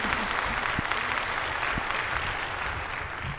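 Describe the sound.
An audience at a live show held after a day at a trade fair bursts into dense, continuous applause that stays full and even throughout, thinning slightly toward the end.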